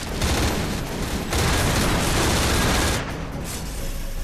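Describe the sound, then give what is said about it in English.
Soldiers fire guns at advancing enemies in dense, continuous gunfire. The shots merge into a loud, unbroken wash that eases slightly near the end. “The soldiers continue to shoot at the ever-increasing replicator numbers advancing on them.”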